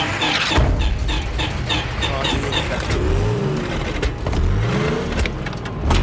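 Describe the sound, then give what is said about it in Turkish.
Car engine running and revving while cold, with condensation on the spark plugs; a loud, continuous rough rumble that swells and eases in a few revs. “Çalıştır bakayım. Motor ısıt, soğumuş.”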